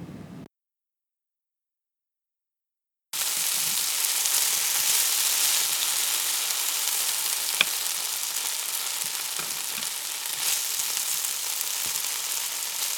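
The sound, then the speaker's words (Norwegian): Onions frying, with a steady, dense hiss of sizzling that starts after a brief silence and stays loud and even, with a few faint pops. “Hva vil du høre ti sekunder nå? Løk som steker.”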